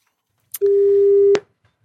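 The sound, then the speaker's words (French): A telephone line tone sounds as a call is dialled: a single steady, mid-pitched beep lasting under a second, cut off by a sharp click, with near silence before and after. “Essayons de l'appeler. Je te laisse faire le numéro BA”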